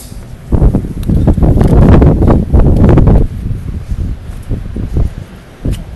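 Gusty wind at the seaside on a sunny Sunday, buffeting loudly as a broad rushing rumble that swells for a few seconds, then eases into softer, uneven gusts.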